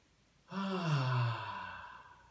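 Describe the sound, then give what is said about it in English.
A deep breath released as a long, voiced sigh during a guided heart-opening meditation, swelling quickly, then easing down in pitch and loudness over about two seconds. “Taking a deep breath into your heart, open heart.”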